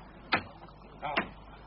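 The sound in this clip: A gate being opened, heard as two brief knocking clunks about a second apart against a faint steady background.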